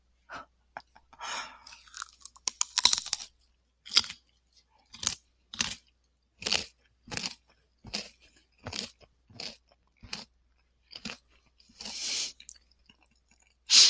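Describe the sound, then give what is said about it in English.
Raw carrots are bitten and chewed with many sharp, crisp crunches, close and prominent in a fairly regular rhythm, with brief quiet gaps between bites and no talking. “this is my SMR of me eating carrots.”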